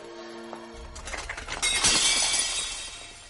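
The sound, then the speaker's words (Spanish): Glass shatters as a tray is dropped, a loud crash followed by a spray of breaking and tinkling glass lasting a couple of seconds after a brief, quieter tonal lead-in. “Un grupo de escritores la mira fijamente al tirar la bandeja.”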